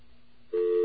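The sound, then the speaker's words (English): A telephone intercept tone from a phone line comes in suddenly about halfway through and holds at one steady mid pitch. It is loud and alone, with near silence before it. “There are different things called intercept recordings. And intercept recordings are things I'm sure we've all heard occasionally. Take a listen to this one.”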